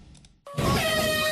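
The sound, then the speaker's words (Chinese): A horn blows to start a national sailing championship regatta on the seaside coast of Beidaihe New Area, Qinhuangdao, in late May, sounding as a loud, steady, sustained blast rich in harmonics after a brief faint lead-in. “随着启航汽笛的鸣响”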